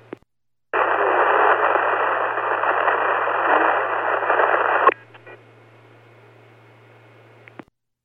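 Radio static on a dispatch channel: a click, then a loud, steady burst of harsh hiss lasting about four seconds. It cuts off to a faint crackling hum, ending with another small click.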